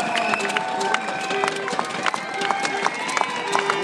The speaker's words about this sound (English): And we're just listening to this amazing atmosphere down here as the runners come past.